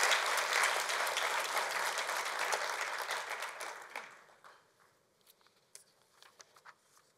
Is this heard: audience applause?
yes